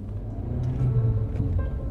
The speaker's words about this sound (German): Machen wir einen schönen Ausflug mit meinem Auto. Kommen Sie, kommen Sie.